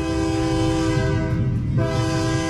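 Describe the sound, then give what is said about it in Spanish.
A train horn blasts steadily and loudly for the whole moment, a rich sustained chord with only a slight dip near the middle and no voices over it. “Deja que suene el tren”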